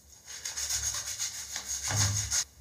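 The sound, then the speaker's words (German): A foaming cleaner is scrubbed into tile grout with many quick, rhythmic rubbing strokes, moderately quiet and steady throughout, with a brief pause near the end. “Und dann packt ihr das eigentlich letztendlich einfach nur auf die Fugen drauf. Und dann wird geschrubbt.”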